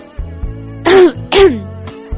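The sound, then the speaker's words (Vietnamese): Coughing from a person choking on a mouthful of broccoli: two loud, harsh, sputtering bursts in quick succession, with nothing else around them. “Mộc Lăng trong miệng vẫn còn ngậm bông cải, chưa kịp nuốt xuống, sặc, suýt nữa thì nghẹn thở, mở to hai mắt nhìn Tần Vọng Thiên”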